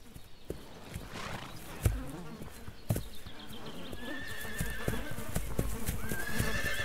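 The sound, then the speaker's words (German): Rival stallions strike energetically with their hooves during the mating season, giving a few sharp thuds among horse sounds, with insects buzzing steadily throughout. “Um Nebenbuhler einzuschüchtern, schlagen sie energisch mit den Hufen.”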